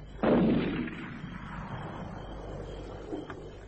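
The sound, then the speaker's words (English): A gunshot fired at a tree outdoors: one loud, sharp crack followed by a long rumbling decay, with a much fainter brief sound near the end. “He's round the bend shooting at trees. Get that gun from him the moment he...”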